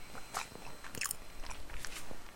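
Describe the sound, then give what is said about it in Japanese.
Crunchy bites into a sweet snack from the Chidoriya Honke confectioner, heard as a few quiet, crisp crackling bursts with faint chewing between them and no talking. “これはね千鳥屋っていうとこのやつですね千鳥屋本家これうまいんだよね大好きこれ食べて”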